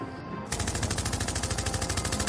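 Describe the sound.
Rapid machine-gun fire erupts about half a second in during a street confrontation, then runs on as a loud, steady, evenly spaced volley of many shots to the end, with no talk.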